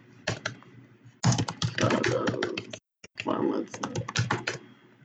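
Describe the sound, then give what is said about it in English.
Fast typing on a computer keyboard: dense, rapid key clicks in loud bursts, with a short pause near the middle before the clatter resumes. “I've learned to type really fast.”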